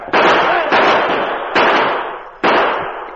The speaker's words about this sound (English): Here come some hombres into the street. Shoot them down.